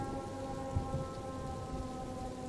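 Steady rain hisses down in a thunderstorm, with low thunder rumbling beneath and a soft thump early on, all heard alone without voices.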